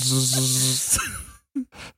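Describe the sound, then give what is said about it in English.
Cicadas buzzing on a sunny summer afternoon, a dense, high, continuous buzz lasting over a second with a voice beneath it, then cutting off before two brief, short sounds. “It's the sound of summer, my friends. The fucking cicada is back.”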